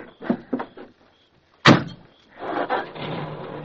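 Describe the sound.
A car door slams shut once, sharp and loud, as people climb into a car to drive off. A few softer clunks come before it, and a low rumble follows.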